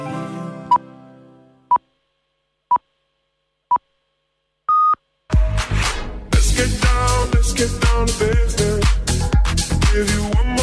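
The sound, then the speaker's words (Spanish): A jingle introduces a daily Olympic Games recap: four short evenly spaced beeps, then a longer fifth tone, followed by loud rhythmic music with a strong pulsing beat. “Suena la sintonía que anuncia el repaso de la jornada olímpica.”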